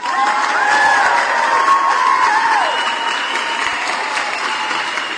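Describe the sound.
Sustained crowd applause mixed with cheering voices, dense and loud through all five seconds and easing slightly toward the end.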